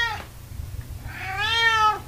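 A cat meowing, first a short clipped call, then after a pause a longer, drawn-out meow, both over a low steady hum.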